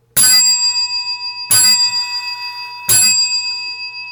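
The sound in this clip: A bell rings as the last school bell at the end of the school day: three separate bright metallic strikes, evenly spaced, each leaving a clear ringing tone that fades slowly.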